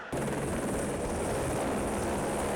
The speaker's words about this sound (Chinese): 湖南省应急管理厅调派应急救援直升机转移受困群众。